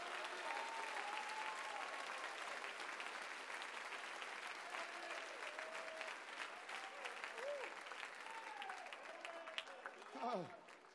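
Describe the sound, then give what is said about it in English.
A church audience claps their hands during worship, a dense, steady wash of clapping that fills the whole stretch at an even loudness, with voices calling out over it. “somebody clap their hands unto God.”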